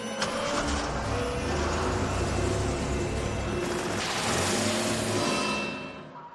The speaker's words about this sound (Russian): «Волга» на большой скорости выезжает и, снеся ограждение, удаляется в ночь.